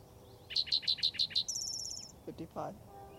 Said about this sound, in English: Spotted towhee number 2 for the Gibson Jack area